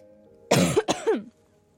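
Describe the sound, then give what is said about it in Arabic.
A person coughs twice in quick succession, two harsh, loud bursts with rasping voiced tails, followed by quiet. “عفوا يا جماعة استحملوني عشان الكحة لسه مكملة معايا.”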